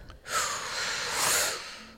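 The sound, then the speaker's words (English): A single deep inhale during a guided breathing exercise: a soft, airy rush of breath that swells over about a second and a half, then tapers away. “Deep breath in.”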